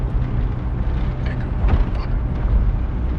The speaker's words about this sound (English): He glances out of the window as a cop car passes him going the opposite direction on the other side of a median.